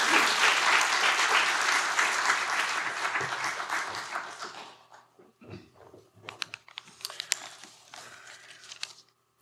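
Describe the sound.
Applause at a church service as a preacher is welcomed to the stage: dense, loud clapping for about five seconds that thins out into scattered individual claps.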